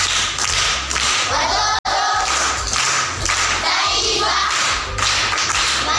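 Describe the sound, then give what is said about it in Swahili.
Primary school pupils clap for a classmate in a rhythmic group round, repeated sharp slapping bursts in a steady pattern, loud and percussive. “Makofi kwa mjomba.”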